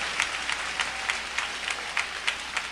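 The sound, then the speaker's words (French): A church audience applauds in praise of Jesus, faint, steady clapping with a few sharper claps standing out now and then. “Bat bravo pou Jezou la.”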